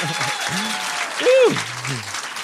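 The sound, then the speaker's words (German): Audience applause at an evening show in Crailsheim: a loud, steady wash of clapping throughout, with a brief raised voice rising above it partway through. “Und das jetzt in Applaus ummünzen.”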